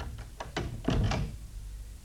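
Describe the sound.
A door being shut as someone goes inside: a few light taps followed by a soft, dull low thud, fairly quiet, with no talk.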